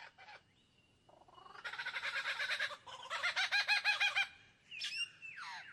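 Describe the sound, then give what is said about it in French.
Superb lyrebird calling in eucalyptus, a loud stream of rapid, repeated chattering and ringing notes in dense bursts, changing phrase partway, then ending with brief higher whistled notes. “Un magnifique oiseau lyre, aussi appelé ménure superbe.”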